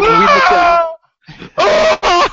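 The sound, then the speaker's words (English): A death scream from the video game Impossible Mission 2: a loud, harsh, wavering cry that slides down in pitch, then after a brief gap another strained burst of screaming. “Impossible Mission 2 had that really great scream. I don't know if you guys have played that. Yeah. Every time you die, the guy”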